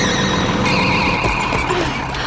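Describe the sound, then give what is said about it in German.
Mowing machine brought to an abrupt stop: a loud, brief mechanical squeal with shrill steady tones over rumbling engine noise. “So konnte sie die Mähmaschine rechtzeitig stoppen”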